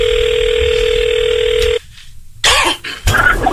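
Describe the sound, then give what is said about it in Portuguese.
Telephone line tone while a call is being placed: a steady, loud, even pitch holds for nearly two seconds, then cuts off abruptly, followed by a brief gap and short rough noisy bursts. “Vamos ligar agora pra esse aqui. O Fernando mandou falar que é do Landscape. Eu vou ligar.”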